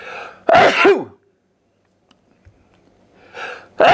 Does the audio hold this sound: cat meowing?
no